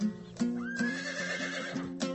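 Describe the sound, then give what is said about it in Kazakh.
A stallion neighs once, a long, fairly faint whinny with a wavering high tone, over low background noise. “Айғырны қара!”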